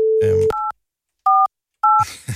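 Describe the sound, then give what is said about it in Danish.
Touch-tone telephone keypad dialling a number to place a call: three short, loud dual-tone beeps separated by silent gaps, with voices just before the first beep and after the last. “Og ringer til Caroline Haubæk.”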